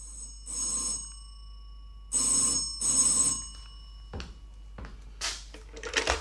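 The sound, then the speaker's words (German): A telephone bell rings with an incoming call in the evening: three bright, loud ringing bursts, the second and third close together, followed by a few sharp clicks and brief rustling. “Da kriegte ich abends einen Anruf.”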